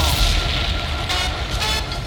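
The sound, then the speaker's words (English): A DJ bomb-drop sound effect in a soca mix: a heavy, booming explosion with a deep rumble, loud and sustained over the music. “Hey, yo, Flex, drop a bomb.”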